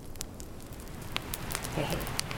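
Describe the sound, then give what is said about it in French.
Rain and a crackling campfire burning in front of a tipi: steady soft patter with scattered sharp crackles and pops throughout, fairly faint. “Nous sommes sous un tipi encore. Comme avec Guillaume l'autre fois, il y a de la pluie et il y a le feu juste devant nous.”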